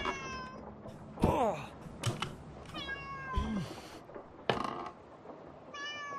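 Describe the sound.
Cat meows in a video game: a few high, harmonic mewing calls with sliding pitch, broken up by sharp clicks and thumps from the game.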